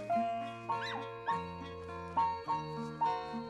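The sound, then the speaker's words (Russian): Two small dogs play in a room beside a bed, giving several high whines and short yips with wavering, gliding pitch over a steady tonal background. “В комнате около кровати играют две собачки.”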